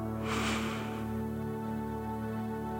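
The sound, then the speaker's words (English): Nasal inhaling during a guided breathing exercise, heard as one soft, airy rush of breath through the nose near the start over a steady, sustained droning tone. “we're going to keep our mouths shut and breathe in and out through our noses.”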